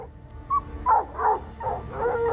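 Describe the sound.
Several tired dogs that have been chasing a mountain lion give a few short yips and barks in an uneven rhythm. The calls are fairly high-pitched, with some whining, and sit over a constant rumble of background noise.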